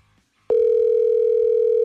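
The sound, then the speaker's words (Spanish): A steady WhatsApp call dialing tone starts abruptly after a brief quiet moment. It holds one unbroken pitch at constant loudness, with no voices over it. “A ver, vamos a marcarle mejor de aquí de WhatsApp. Marcamos de WhatsApp”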